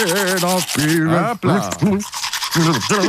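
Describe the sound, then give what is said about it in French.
A man brushes his teeth while humming a song, the melody wavering through steady bristle scrubbing. The humming is loud and pitched, with brief breaks between phrases. “prend la brosse à dents et chantonne en même temps et ça donne ceci.”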